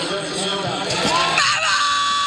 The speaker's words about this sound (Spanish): no me puedo controlar con el fútbol americano, claramente. Y mucho más si están jugando estos niños. Entonces me voy a exhibir un poco y les voy a poner mis gritos.